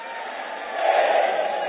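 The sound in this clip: Crowd chanting Labbaik in unison at an Islamic religious gathering: a loud, dense roar of many voices that swells midway through the short burst.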